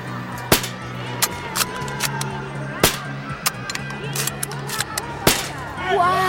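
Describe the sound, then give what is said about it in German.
Rifle shots at a fairground shooting stand: many sharp, loud cracks fired at uneven intervals, with faint voices underneath. “Weißt du was, ich zeig dir, wie man das macht. Gib mir das Gewehr.”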